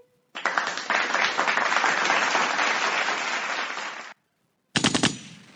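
A dense, rapid burst of gunfire sound effect, like an automatic weapon, roars for about four seconds and cuts off. After a short silence a second, briefer burst follows.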